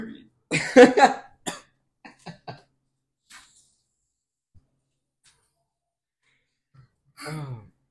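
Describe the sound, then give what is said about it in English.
A person coughs right into a microphone: a short cluster of harsh, noisy bursts near the start, then a few small scattered noises and a brief voiced sound at the end, with silence in between. “No, he's just coughing on the mic. Don't cough into the mic”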